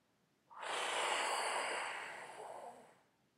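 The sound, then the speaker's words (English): A person exhales completely through the mouth in one long, breathy whoosh lasting nearly three seconds, soft and airy, easing off gradually toward the end. “So we're going to start by exhaling totally through the mouth, like this.”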